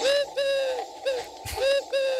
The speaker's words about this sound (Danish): Ej, okay, den er insisterende. Nå jo, det var bare en solsort.